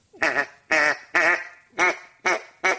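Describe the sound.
Six evenly spaced, wavering nasal notes from a duck call blown softly while keeping the tone full. Each note is short and rich and stands alone, with no talk over it.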